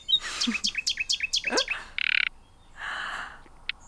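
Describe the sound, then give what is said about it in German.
Birds chirping at dawn: a quick run of high, descending chirps, followed by a short buzzy burst and a softer rasping call, then one brief high note at the end. “Sie mag das Gezwitscher der erwachenden Vögel, die ihr von ihren Träumen erzählen.”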